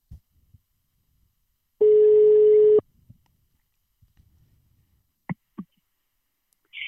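A telephone ringback tone sounds on an outgoing call: one steady, clear, mid-pitched tone lasting about a second, followed by a couple of faint clicks.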